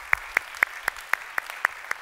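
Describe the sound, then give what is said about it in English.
A church audience claps in unison, eight crisp, evenly spaced claps at a steady beat over a quiet background. “So if you would put your hands together, welcome those who might be listening right now.”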